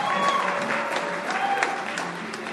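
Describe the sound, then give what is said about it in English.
An audience in a chapel applauds visiting guests with steady, dense clapping that lasts the whole time. “We'd like to welcome our red carpet visitors. Can you give them a hand?”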